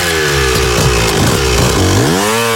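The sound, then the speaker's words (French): A big motorbike's engine runs with a buzzing, harmonic drone, then revs up with a clearly rising pitch near the end. It stays loud throughout, with no talking. “il monte sur sa bécane là. Attends, il démarre.”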